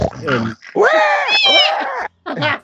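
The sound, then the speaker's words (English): A voice actor, Dee Bradley Baker, imitates a pig with a run of squealing, grunting vocal bursts, high and strained in pitch, broken by a few short pauses. “we come the next day talking about Dee Bradley Baker as a pig. Yeah, he's going,”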